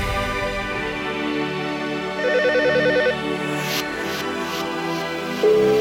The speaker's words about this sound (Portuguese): Estão ligando pra ti aí.